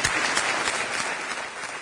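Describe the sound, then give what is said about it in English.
Applause fills a state General Assembly chamber, a steady, dense patter of many hands clapping that eases slightly toward the end. “And that may be the last time a Hartzell is applauded in the General Assembly.”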